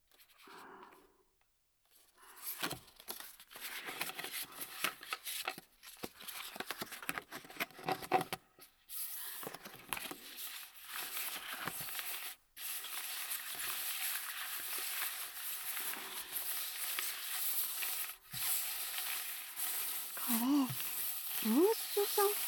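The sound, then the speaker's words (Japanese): Playing cards are shuffled and laid out in a long stretch of dense, papery riffling and rustling, broken by a few brief pauses. The sound is quiet overall, and a voice is briefly audible near the end. “じゃあカードをばらしてシャッフルしながら並べていくよ。”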